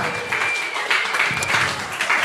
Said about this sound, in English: That deserves a round of applause.